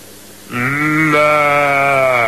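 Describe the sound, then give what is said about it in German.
A person imitates a sheep's bleat with a sustained, nasal, buzzing voice that jumps up in pitch partway through and holds to the end, alone with no other sounds. “schauen wir mal, ob wir ein Schaf nachmachen können.”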